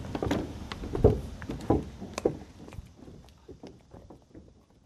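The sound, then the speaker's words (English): Footsteps walking across toward the kitchen of an old house: a series of fairly loud, irregular thuds that grow softer and more widely spaced toward the end. “So if we could walk across to the kitchen.”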